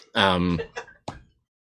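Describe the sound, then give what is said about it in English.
A person clears their throat in three voiced bursts. The first is the longest and fullest, and two shorter, rougher catches follow before it stops. “if I clear my throat, can he hear me?”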